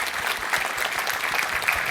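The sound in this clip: Audience applause at a technical talk's question session: dense, steady clapping from many hands fills the whole stretch at an even level.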